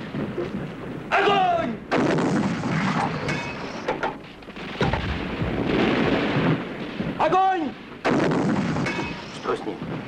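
Heavy artillery and gunfire fill a war battle scene after an order to fire, with dense, continuous booming blasts and crackling shots. The loud roar carries on through the whole stretch with only brief dips.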